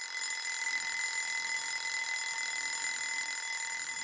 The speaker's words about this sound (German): So klingt der Wecker.